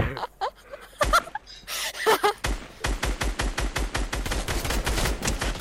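Gunfire from the Fortnite video game: a few scattered shots and short vocal sounds give way to a rapid, steady stream of automatic shots that continues loudly to the end.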